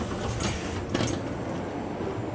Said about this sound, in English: Stand clear of the closing doors, please.